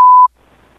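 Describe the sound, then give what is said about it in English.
A voicemail beep on a phone line before a message is left: one short, loud, steady electronic tone that cuts off sharply, followed by a faint, quiet line hiss. “The person you're trying to reach is not available. Please leave a message after the beep.”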